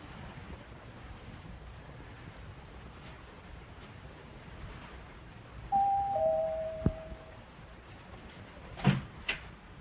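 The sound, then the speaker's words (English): A front door of a home being opened, with a brief high squeak followed by a sharp click, then a couple of faint knocks near the end over a quiet steady hiss. “Stepping into the hall, he heads to the living room as his mother answers the door.”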